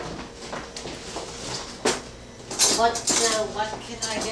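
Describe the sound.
Cutlery clinks and rattles as a spoon is fetched for coffee: a sharp knock, then a short burst of metallic jingling, with voices talking alongside.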